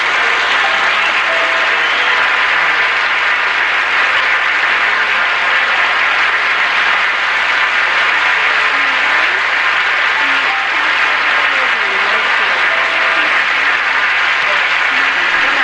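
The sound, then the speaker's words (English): Audience clapping: sustained, dense applause that stays loud and even, with no pause, for a long stretch. “say it's a lot of clapping. Sorry, I should have cut that out”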